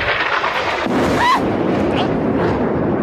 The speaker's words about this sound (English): And then a missile blows up the building right behind her. And this is how that went down.